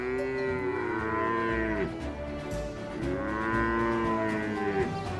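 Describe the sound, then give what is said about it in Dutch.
Cattle moo as a cowboy drives his herd through dry Wyoming wilderness. Two long, loud, drawn-out moos with arching pitch are heard alone, separated by a short gap. “cowboy Edmund Wilson van de 3-9 Range, als hij zijn koeien door de droge wildernis van Wyoming leidt”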